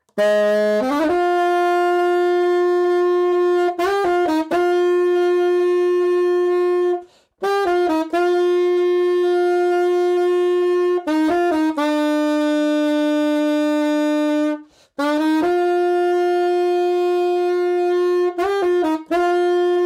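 Saxophone playing the bagpipe melody from a heavy rock song, starting on F. It plays loud, sustained drone-like notes with quick ornamental flicks, in three long phrases split by brief breaths, with no voices.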